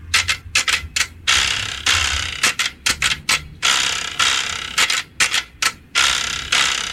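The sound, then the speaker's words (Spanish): Wooden ratchet rattle (carraca) played in rapid bursts of dense, dry clicking, with many short spins and a few longer ones, loud and alone. “Así suena la carraca.”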